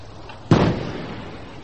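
A small naval deck gun fires once at long range before a crash dive: a single sharp boom that decays into a fading rumble over about a second, alone against low background noise.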